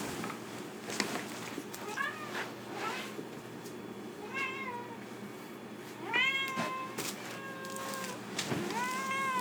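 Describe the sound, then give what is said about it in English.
A pet cat meows several times, giving short, tonal, slightly rising calls spread out over a steady low background hum, with a few soft knocks and rustles in between. “Where's my cat?”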